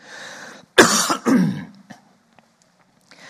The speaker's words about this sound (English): Excuse me. Down the wrong pipe.